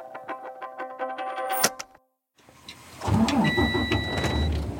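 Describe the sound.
Car engine and road rumble as a vehicle pulls into a farm in rural southern Oregon: light ticking and tones at first, a brief moment of silence, then a louder, continuous low drone of the moving car.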